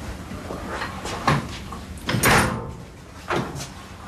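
A heavy safe door is opened, giving a few dull clunks and scraping bursts over a steady hiss, at a moderate level with no voices.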